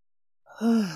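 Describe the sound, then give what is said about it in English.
A single deep breath let out as an audible sigh, a short breathy exhale that swells quickly and then trails off, heard on its own. “Take a deep breath. I'm going to take a deep breath.”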